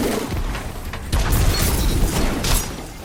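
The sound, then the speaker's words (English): A spike grenade explosion in the video game Destiny 2, a sudden heavy boom that gives way to a sustained rumbling, crackling blast. “That was a good grenade. If you're watching this on Spotify, that's a good grenade. Spike grenade.”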